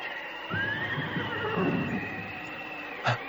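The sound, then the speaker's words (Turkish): A horse neighs, a high, wavering whinny that rises and trails off over steady background hiss, with a short knock near the end. “Bir at sesi mi duydum?”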